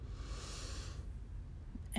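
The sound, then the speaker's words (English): Slow, deep inhale during a guided breathing exercise, a soft airy hiss lasting about a second that then fades to quiet. “Do that 2 more times, 2 more deep breaths. Breathing in”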